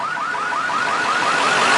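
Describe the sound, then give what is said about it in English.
Car alarm going off, a loud electronic siren repeating rapid rising whoops in a steady, unbroken rhythm, with no voices over it. “How can we turn off the car alarm?”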